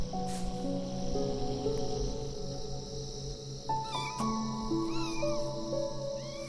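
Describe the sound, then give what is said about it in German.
Kittens mewing while they play, with a few short, high chirping meows against a steady background of sustained tones. “Oh, schau mal, da kommen schon die nächsten Kätzchen neugierig angewackelt.”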